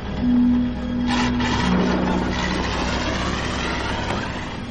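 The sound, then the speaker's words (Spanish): A van pulls away and drives along a dark road, its engine giving a steady low rumble with a faint hum throughout and no voices. “La furgoneta retoma la marcha y circula por la oscura carretera.”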